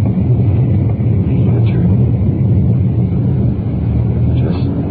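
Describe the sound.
A car driving with its windows open as it swings around a corner: a loud, continuous low rumble of engine and road noise that stays steady throughout.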